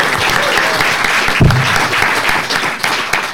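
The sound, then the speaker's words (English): A live show audience in Birmingham applauds the panel with brisk, dense clapping from many hands, loud and continuous for a few seconds. “A round of applause as well, please, for Rory, Tony and Dion, the illustrious panel.”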